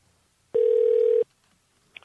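A telephone ringback tone on an unanswered call: one steady, buzzing tone lasting under a second, sounding alone against near silence.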